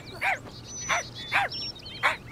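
A cartoon dog gives four short, high, yelping barks spaced at fairly even intervals over a low steady hum.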